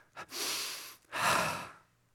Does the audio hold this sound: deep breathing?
yes

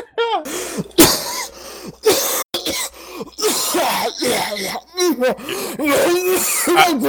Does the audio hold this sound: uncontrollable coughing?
yes

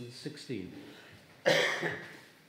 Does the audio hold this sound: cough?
yes

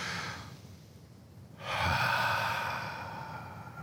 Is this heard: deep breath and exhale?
yes

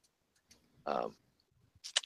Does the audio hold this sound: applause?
no

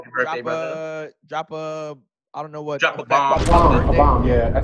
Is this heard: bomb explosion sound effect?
yes

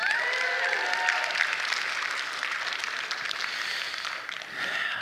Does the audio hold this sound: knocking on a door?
no

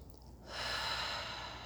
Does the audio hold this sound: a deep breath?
yes

